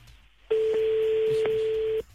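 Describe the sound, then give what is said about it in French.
A single steady telephone tone sounds for about one and a half seconds while a call is placed to a number in Calvados, France, starting abruptly after near-silence and then cutting off. “Alors attention, on appelle. Allez, c'est parti.”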